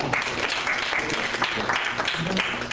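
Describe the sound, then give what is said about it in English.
Audience applause at the end of a lecture: a dense, steady wash of clapping that holds at an even level for the whole stretch, with some voices mixed in. “Let's finish the talk. Let's clap.”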